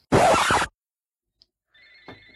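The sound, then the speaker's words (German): A telephone ringing during a wine tasting. A loud, brief rustling scrape comes first, then silence, then a faint electronic ring tone with a steady pitch starts near the end. “Hört ihr das? Ja. Ja. Das ist mein Telefon.”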